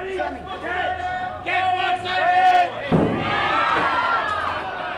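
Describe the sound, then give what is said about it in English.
Fishmongers at Pike Street Market in Seattle shouting as they hurl king crab and halibut to one another. Loud chanted calls from several voices ride over crowd chatter, with a sharp slap near the middle. “At the Pike Street Market in Seattle, fishmongers hurl everything from king crab and halibut to one another before packing it up for customers, and they're none too quiet about giving a heads up.”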